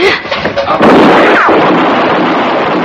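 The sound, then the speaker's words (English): A single loud gunshot in a drama follows a brief voice, a sudden booming blast with a long, sustained, noisy tail. “No more! Don't shoot again. Just stand easy, mister. You shot him. You shot my boy.”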